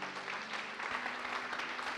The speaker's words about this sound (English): Would you clap your hands right now and thank God for what he's doing?